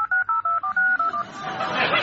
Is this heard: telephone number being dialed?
yes